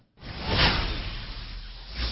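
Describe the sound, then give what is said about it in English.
A single airy whoosh sound effect swells in quickly, peaks early, then holds as a broad rushing sweep before lifting slightly again at the end, heard alone. “We could use a whoosh.”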